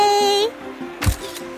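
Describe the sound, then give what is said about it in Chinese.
A camera shutter clicks sharply as a young girl takes a selfie beside a canal lock gate. The click follows a short sustained tone. “大人的世界好复杂，算了，我拍照打卡就好了。”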